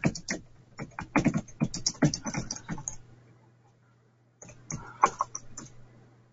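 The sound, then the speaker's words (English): Typing on a computer keyboard: many quick, crisp key clicks in an uneven rhythm, a pause of about a second, then a shorter burst of keystrokes over a low steady hum. “So I'm going to type this in to see if...”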